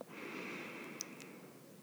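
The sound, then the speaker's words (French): A single long, deep inhalation taken during a guided relaxation exercise: a steady, airy rush of breath that lasts nearly two seconds at an even, moderate level. “Inspirez profondément. Expirez profondément. J'inspire et je me détends.”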